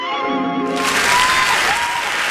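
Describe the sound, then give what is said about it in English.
Applause from an audience at a live morning show, a dense, loud and steady wash of clapping that bursts in after a short muffled tonal opening and carries on to the end. “Please, please hold the applause until the show comes to a complete stop.”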